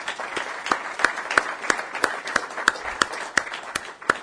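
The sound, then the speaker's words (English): An audience applauds a journalist at a talk, with distinct hand claps falling in a fairly even, quick rhythm over a softer bed of clapping that carries on steadily throughout. “Please join me in a quick hand for the journalist.”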